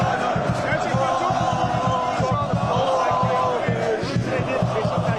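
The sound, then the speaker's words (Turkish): Crowd of about 3,000 football fans chanting outside Istanbul airport as a newly arrived striker appears, many voices joined in a rhythmic chant over repeated low beats that continue throughout. “Yaklaşık 3000 taraftar oradaydı. Vlahović kapıdan çıkar çıkmaz tezahüratlar yükseldi.”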